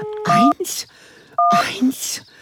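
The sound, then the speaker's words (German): Telephone keypad tones as the emergency number 112 is dialled to reach the fire brigade: a few short dual-pitch beeps in two bursts, with a voice speaking between and over them. “Ich muss die 112 anrufen. Das ist die Feuerwehr. Oh, wie gut, dass ich die Nummer im Kopf habe.”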